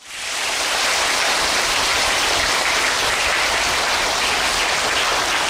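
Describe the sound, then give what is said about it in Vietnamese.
Sustained audience applause at a Buddhist temple dharma talk: dense, loud clapping rises within the first half second, then holds as a steady, even roar to the end. “Thêm vỗ tay nữa là thấy có khí thế liền, có năng lượng liền.”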